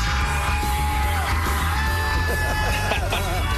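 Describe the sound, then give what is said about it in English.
Blake Shelton whoops and yells in celebration at a singing competition finale when his contestant wins. Loud whoops rise over crowd noise and music. “And you can hear him go, woo! Having a good time.”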